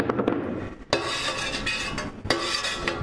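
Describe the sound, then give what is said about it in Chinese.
A utensil stirs and scrapes through a setting mixture after cuttlefish ink is poured in, with a couple of sharper clinks against the container. The sound is quiet and continuous, with no talk. “现在我们把墨鱼骨的汁倒进去。 OK。倒进去后， 然后搅拌它。”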